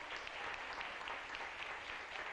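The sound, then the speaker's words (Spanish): Applause from a church audience, a steady, even wash of many hands clapping that carries through the whole stretch at a fairly soft level, with no break or swell. “Dele un aplauso al Rey.”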